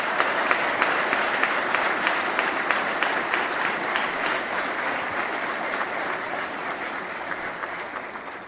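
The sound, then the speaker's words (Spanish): Sustained applause from the audience at an indigenous congress gathering: dense, even clapping that holds at a steady loudness for the whole stretch, with no voices on top. “Un aplauso.”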